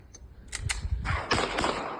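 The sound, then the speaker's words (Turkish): Several sharp pistol shots in quick succession, fired into the air by a person walking down a street at night. The cracks come in an uneven rhythm and are loud against low background noise. “gece saatlerinde sokakta yürüyen bir kişi tabancasını çıkarıp havaya peş peşe ateş açtı.”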